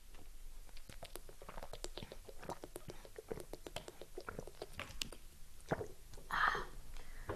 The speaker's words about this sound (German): So, ich muss mal kurz was aus der Normalwasserflasche trinken.